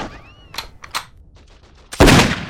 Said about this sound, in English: Now grab your gun and fire at the enemy.